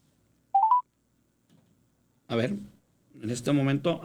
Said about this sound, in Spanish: A ver, vamos a volver a marcar. A nuestra compañera.